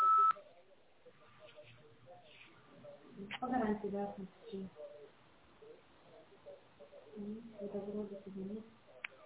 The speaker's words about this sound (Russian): Вы можете оставить для него голосовое сообщение после сигнала.